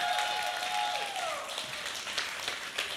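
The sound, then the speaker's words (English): Audience applause welcoming two guests up to speak: steady, moderately quiet clapping with scattered sharper claps, after a brief voice at the start. “Can you guys give it up for Frank and for Trey?”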